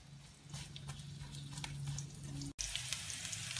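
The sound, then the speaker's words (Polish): Onion sizzles as it fries in hot oil, a steady crackling hiss that holds at an even level throughout, with a brief break partway through. “Olej nam się nagrzał, także teraz wrzucimy pierwszą cebulę, żeby ona dostała trochę złotego koloru.”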